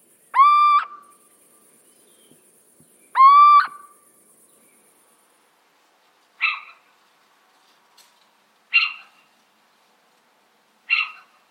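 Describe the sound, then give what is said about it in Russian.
Little owl calling: two clear, drawn-out hooting whistles, then three shorter, harsher and raspier notes, spaced several seconds apart against otherwise quiet surroundings. “Домовый сыч – один из самых классных певцов среди сов. У него очень разнообразное пение. Давайте послушаем его.”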